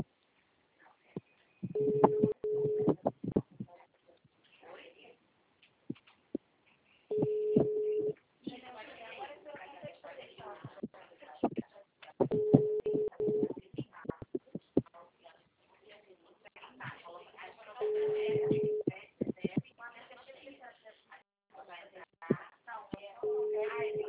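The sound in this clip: A telephone call ringing with no answer: a tonal ring repeats about every five seconds, five rings in all, with the last one cut off. People talk quietly in the gaps between rings.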